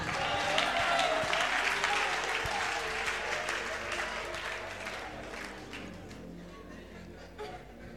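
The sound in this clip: Applause from an audience during a church sermon, a dense, steady wash of many hands clapping that runs the whole length and slowly eases in loudness toward the end.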